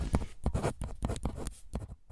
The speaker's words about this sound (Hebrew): זהו, כתבתי הכל.